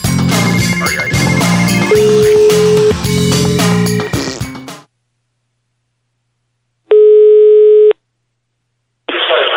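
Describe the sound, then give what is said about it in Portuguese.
Loud music cuts off abruptly, and after a few seconds of silence an outgoing phone call rings back with one steady, low beep about a second long, then a second tone begins at the end. “Eu vou ligar de novo agora, peraí.”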